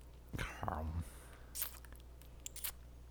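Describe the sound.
Crunchy peanuts being chewed, a few crisp, faint crunches following a brief quiet voice.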